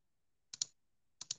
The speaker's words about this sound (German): Schreibst du gerade oder wer schreibt da gerade in den Chat?